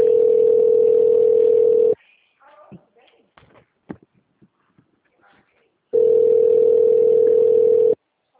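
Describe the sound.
Telephone ringback tone while a call connects: two steady, loud, mid-pitched buzzing tones, each about two seconds long, separated by a pause holding faint scattered clicks and rustles.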